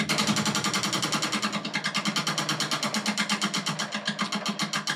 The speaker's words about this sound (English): We need to spin the wheel.